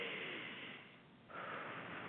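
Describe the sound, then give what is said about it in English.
A slow, deep breath drawn in during a guided relaxation pause, heard as a quiet, steady airy hiss lasting about two seconds, with its tone shifting partway through and no voices. “Take a deep breath.”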